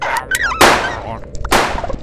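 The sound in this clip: Gunfire in two sharp, loud bursts, each a harsh crack with a short ringing tail, separated by a brief gap.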